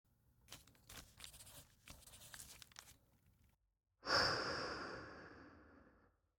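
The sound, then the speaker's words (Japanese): Slow human breathing: a long, quiet, uneven breath in with rustling breathy bursts, a short silent pause, then a loud airy breath out that starts strongly and fades away. “自分のタイミングで吸って吐いて。”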